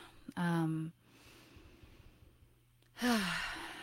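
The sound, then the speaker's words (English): A deep breath drawn in and let out as two loud, breathy voiced sighs, the second falling in pitch, with quiet breathing between them. “Deep breath,”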